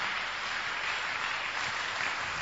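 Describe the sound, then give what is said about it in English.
Congregation applauding during a church sermon, a soft, even, continuous patter of many hands clapping with no distinct single claps or voices rising above it. “God bless you for clapping. You are clapping for him.”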